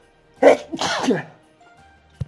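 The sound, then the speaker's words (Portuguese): A person's sneeze, brought on by dust: one loud, sharp burst with a quick intake at the start and a breathy explosive release, followed by quiet and a faint click at the end. “Espirrei, eu disse que ia espirrar, meu ouvinte. Vai vir outro.”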